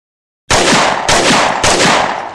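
Three loud gunshot blasts used as a sound effect, fired in quick succession after a brief silence, each a sharp, harsh burst with a short ringing tail.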